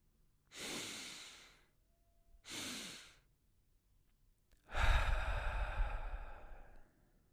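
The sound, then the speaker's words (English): Deep, slow breathing during a relaxation exercise built on mouth and nose inhales. Three audible breaths: two shorter airy ones, then a longer, fuller and louder breath, with quiet between them and no talk. “Let's do one more breath, except the only difference this time being you take an inhale through the mouth, through the nose, and then another little inhale through the nose.”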